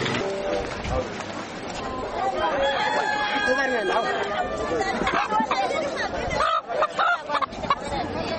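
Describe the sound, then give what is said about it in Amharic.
Chickens cluck and a rooster crows at a busy chicken market where birds are being sold, the calls rising over steady crowd chatter and a dense hubbub of voices. “አሁን ዶሮ ገበያ ውስጥ ነው ያለነው፣ ዶሮ እየሸጡ ነው ያሉት።”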